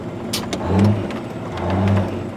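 An oil field truck engine revs twice, its low rumbling drone with tonal harmonics surging up and easing back down in two swells, with no voices.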